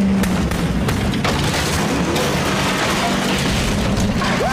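An explosion from the film Bad Boys 2 erupts as a loud, dense roar of rumbling debris noise that stays heavy and sustained for several seconds.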